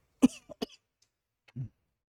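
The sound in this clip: A person coughs to clear a tickle in the throat: a few short, sharp coughs close together, then a lower, rougher throat-clearing sound after a pause, with no talk.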